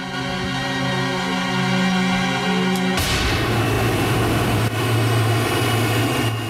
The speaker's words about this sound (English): A white, rotating shape resolves itself into the spinning turbine of a jet engine. Passengers are climbing the boarding steps of an airliner.